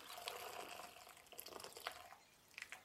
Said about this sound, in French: Donc là, ça y est, je vais pouvoir débarrasser mes pâtes. Pour moi, elles sont suffisamment cuites. J'égoutte mes pâtes.